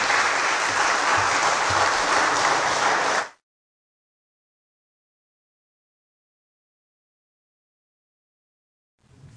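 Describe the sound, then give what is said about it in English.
A church audience applauds a guest preacher: a dense, steady burst of clapping for about three seconds that stops abruptly, followed by long silence until faint sound returns at the very end. “Would you give him a hand and welcome him, church?”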